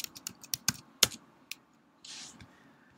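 Keys clicking on a computer keyboard as a title is typed for a link group. Several sharp, irregular keystrokes are spaced unevenly, then the tapping stops. The typing is fairly quiet and heard without talk.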